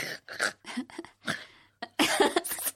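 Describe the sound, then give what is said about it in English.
Raspy throat-clearing and cough-like rasps from someone whose throat makes such noises on its own, a run of many short, uneven bursts separated by brief gaps, ending in a denser cluster. “I don't know what noise that was. My throat does it.”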